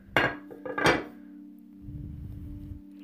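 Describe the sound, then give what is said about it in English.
A bowl being put down: two light clinking knocks within the first second, then a faint steady hum and a soft low rustle. “I'm just gonna put the bowl down.”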